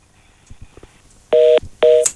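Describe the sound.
Telephone tones from a dropped call-in line on a radio show: two loud, steady, two-pitched beeps of equal length, separated by a short gap and preceded by a few faint clicks.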